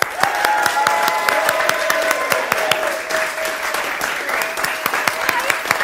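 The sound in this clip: Audience applause welcoming an award-winning actress onto the stage: dense, steady clapping from a crowd, sustained at an even level throughout.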